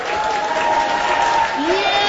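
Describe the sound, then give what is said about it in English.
Cheering and clapping from a room of health professionals at the Mayo Clinic in Rochester, Minnesota, during Loser Ball, a game of throwing and dropping imaginary balls. Steady crowd noise, with voices calling out over it throughout. “At the world-renowned Mayo Clinic in Rochester, Minnesota, a room full of health professionals is cheering on colleagues throwing and dropping imaginary balls.”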